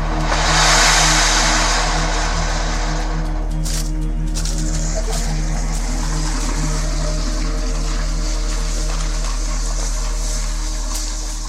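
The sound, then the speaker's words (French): An engine drones steadily as it powers a water pump that blasts high-pressure water onto the ground to wash out gold-bearing mud. A continuous low rumble with a strong steady hum and broad hissing noise holds throughout without pause. “Ce moteur leur sert à pomper l'eau pour la projeter à très haute pression sur le sol et obtenir une boue liquide qui contient l'or.”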